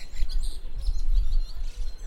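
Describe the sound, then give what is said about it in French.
Birds singing in a small park beside a road, faint high chirps and brief tweets scattered over a steady low rumble, with no voices. “Je vous ai enregistré à un moment, on était dans un petit parc, à côté de la route hein, pourtant, mais j'avais l'impression d'être totalement déconnectée et on entendait juste des oiseaux chanter.”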